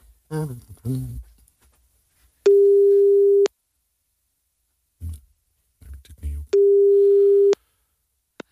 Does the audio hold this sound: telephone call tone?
yes